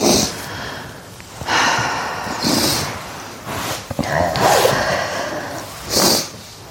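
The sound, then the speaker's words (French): A person takes several deep breaths, each one a broad, airy rush of inhaling or exhaling. The breaths are separated by short pauses, and they swell and fade in an uneven rhythm. “Je t'invite à juste prendre quelques respirations.”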